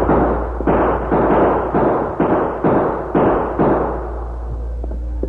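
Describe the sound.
A volley of gunfire in a frontier skirmish with warriors rushing for their guns, heard as a steady run of loud, muffled, evenly spaced blasts that thin out toward the end.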